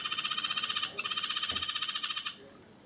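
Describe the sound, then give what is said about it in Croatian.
A Wotjalum frog calling, its voice more like a chicken than a frog: a rapid train of many high, clucking pulses, briefly interrupted near the start, then abruptly stopping. “Jedna od mojih omiljenih žaba se zove Wotjalum žaba i više zvuči kao kokoška nego kao žaba.”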